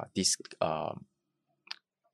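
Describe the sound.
A single short, sharp click from a swappable switch with a clicky feel sounds on its own after a stretch of people talking.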